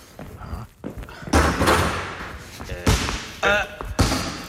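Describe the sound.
A basketball bounces as a player trains for his next game, giving several heavy, irregular thuds on a hard floor, with talking between the bounces.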